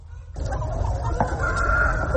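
Chickens raised for meat on a farm cluck and call continuously, with crow-like cries over a steady low rumble.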